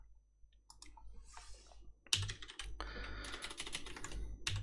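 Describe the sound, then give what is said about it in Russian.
A computer keyboard clatters as someone types a search query. A few sparse key clicks come first, then a burst of fast, dense keystrokes continues to the end. “Вот, сейчас смотрите, я пишу.”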